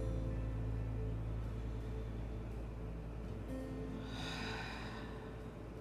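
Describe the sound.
A deep breath taken during a guided meditation: a faint, airy breath near the end, rising briefly over a steady low humming drone.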